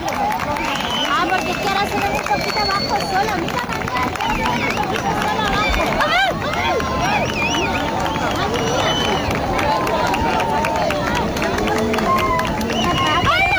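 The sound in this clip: A large crowd on a Cádiz beach reacts at the maximum of a solar eclipse. Loud, dense babble of many voices fills the whole clip, with shouts rising above it.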